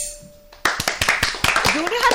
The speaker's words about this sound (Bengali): হাততালি থেমে যাচ্ছে কেন? সবার হাতে কি একটু একটু করে ব্যথা লাগছে? জোরে একটা হাততালি দাও।